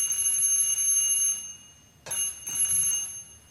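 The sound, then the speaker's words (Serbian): A doorbell rings unexpectedly: a bright, steady electric ringing tone sounds in two long bursts separated by a short silent gap. “Što mi je čudno da neko zvoni, ali baš nikog ne očekujem.”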